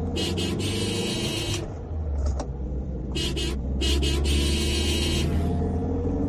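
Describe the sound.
Car engine rumbling on a road while following a lorry, on the route from Ranchi to Hazaribagh; a steady low drone continues throughout.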